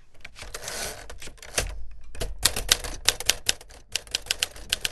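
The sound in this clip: An old-fashioned manual typewriter clatters in a writer's office with a fast, irregular run of sharp keystroke clacks. Some strikes land louder than others, and there is a few brief pauses between bursts of typing.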